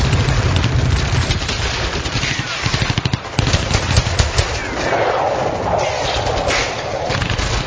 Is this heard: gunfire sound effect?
yes

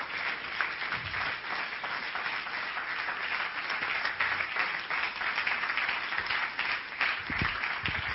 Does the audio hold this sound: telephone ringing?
no

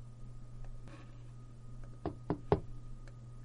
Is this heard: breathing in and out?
no

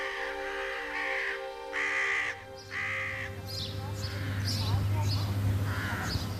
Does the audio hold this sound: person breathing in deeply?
no

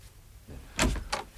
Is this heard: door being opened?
yes

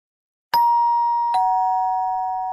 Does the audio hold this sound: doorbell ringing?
yes

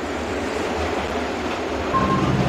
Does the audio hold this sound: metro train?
yes

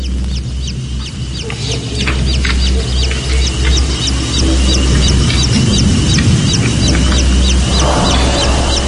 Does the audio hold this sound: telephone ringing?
no

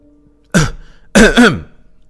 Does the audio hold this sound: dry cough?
yes

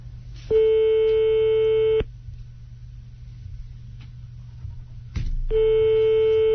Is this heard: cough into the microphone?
no

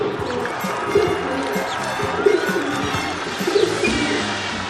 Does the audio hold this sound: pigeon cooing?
yes

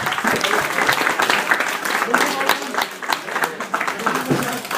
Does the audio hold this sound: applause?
yes

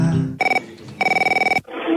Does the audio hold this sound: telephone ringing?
yes

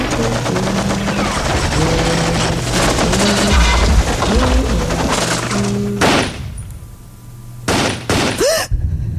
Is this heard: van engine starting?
no

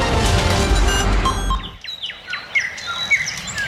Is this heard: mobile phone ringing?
no

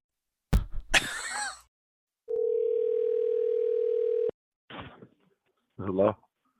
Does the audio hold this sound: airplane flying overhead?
no

